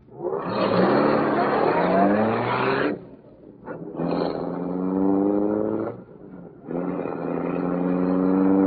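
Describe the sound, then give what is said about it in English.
A roadster pulling out into a street and accelerating, heard as three loud bursts of engine roar, each rising in pitch, separated by short quieter gaps. “Roadster's pulling out.”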